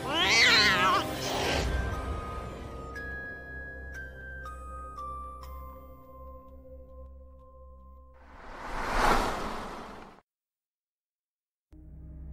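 An agitated cat yowls loudly at the start with drawn-out, wavering cries. A few sustained ringing tones follow, then a later burst of broad noise.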